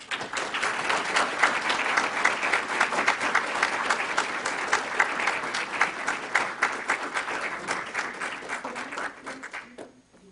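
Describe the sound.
Sustained audience applause welcoming a speaker, dense steady clapping for about ten seconds that gradually thins and fades out at the end.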